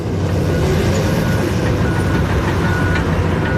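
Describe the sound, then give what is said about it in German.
A bulldozer drives back and forth across a vegetable field, giving a loud, unbroken low engine rumble with grinding noise throughout. “Ein Bulldozer, also eine grosse Baumaschine, fährt hin und her für den Herd.”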